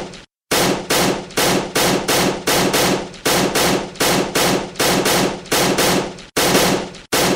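Gunshots ring out in a rapid, steady string of many sharp, loud bangs, each with a short ringing tail, following one another at an even rhythm with no talk.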